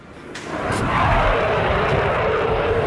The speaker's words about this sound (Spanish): los cuatro Eurofighter, el avión de combate del ejército español, han pintado en el aire la bandera nacional.